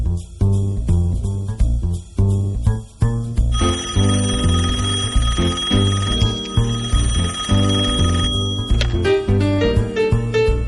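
A telephone rings over music for about five seconds, a bright, sustained trilling bell tone layered on a steady, loud beat.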